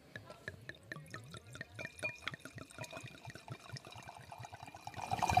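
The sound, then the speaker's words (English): Wine poured into a cup, heard as a run of quick glugging splashes that gets louder and denser toward the end. “Here's the sound of some wine being poured into a cup.”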